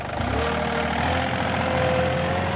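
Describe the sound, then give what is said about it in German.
Steady engine rumble of a vehicle pulling off to empty a waste container at an open-air swimming pool: a continuous low hum with a thin higher tone running through it, moderately loud and without voices. “Sagt er und fährt wieder davon, um den Abfallcontainer zu leeren.”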